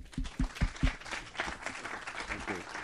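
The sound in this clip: Audience applause at a Film Forum film screening welcomes a speaker to the stage: a steady wash of clapping runs throughout, with a few heavy low thumps near the start and voices mingling under the noise.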